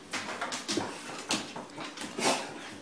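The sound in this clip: A dog named Tank whimpers after getting into the trash, giving a few soft, quiet whines and snuffly bursts spaced across the moment.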